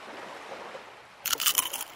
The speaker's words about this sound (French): They're good. They're crunchy. Délicieux, ces petits sablés.